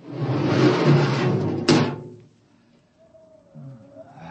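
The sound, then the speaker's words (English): A spaceship airlock door opens with a loud, broad rushing hiss lasting about two seconds, punctuated near its end by a single sharp clank, after which the sound drops to a quiet, low rumble. “Open the airlock.”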